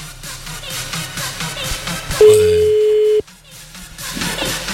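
A telephone call's ringing tone: one steady, even electronic tone lasting about a second, louder than the busy sound around it.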